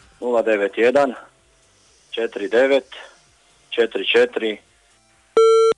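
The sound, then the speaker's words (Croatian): A single loud, steady electronic beep of a telephone busy tone after a call line drops. It comes right after a few stretches of talk. “Žao mi je, puče veza.”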